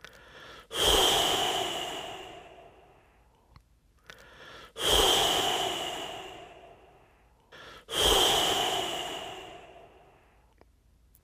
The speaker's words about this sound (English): the sound you're going to make when you exhale is a kind of whoosh, like. So just try that a few times so you get comfortable with exhaling through your mouth around your tongue.